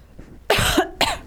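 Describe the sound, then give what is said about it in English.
Two sharp, harsh coughs, the first a bit longer, stand alone against faint background noise. “Someone's got a cough or congestion or something.”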